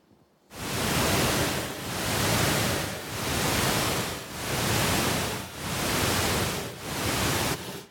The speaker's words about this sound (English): we played the deep sleep stimulating sound that was shown to make them have deeper sleep.